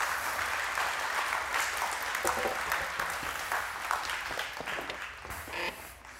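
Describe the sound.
An audience applauds to welcome two guests onto a stage, a soft, continuous patter of many hands that holds steady and then tapers off toward the end.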